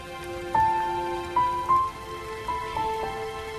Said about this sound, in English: Raindrops pepper the water's surface as the family stays close together.